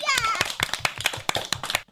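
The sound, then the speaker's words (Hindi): Sharp, rhythmic handclaps applaud young children who have just recited poetry, many evenly spaced claps over a brief child's voice at the start. “बच्चों के लिए जोरदार तालियां।”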